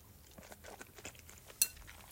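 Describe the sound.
Quiet eating sounds from a bowl of Morioka ramen: soft chewing and light utensil clinks against a dish, with one sharper clink standing out near the end.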